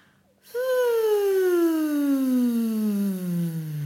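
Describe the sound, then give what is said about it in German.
A single voice slides smoothly downward on a breathy "woo" in a glissando voice exercise. After a short silence, the tone holds steadily and falls gradually in pitch for about three seconds. “Das heißt, auf einem Wuh mit ganz viel Luft die Stimme von oben runter fallen lassen. Klingt dann so.”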